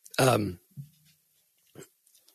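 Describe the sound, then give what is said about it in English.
A dog coming into a room gives a short, loud, voiced yelp, followed by a brief low whine and a couple of fainter snuffling sounds. “My dog just came in.”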